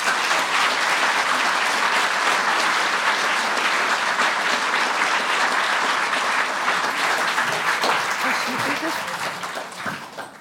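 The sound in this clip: Warm audience applause welcoming two speakers at the House of Literature, a thick, even roar of many clapping hands that holds steady for about ten seconds before tapering off at the very end.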